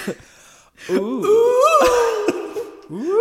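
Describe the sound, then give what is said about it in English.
A voice imitates an alluring wail, the call of a witch: drawn-out, wavering moaning tones that swoop up and down in pitch, broken by short pauses. “This alluring wail. I'm sorry, is that what an alluring wail is supposed to sound like?”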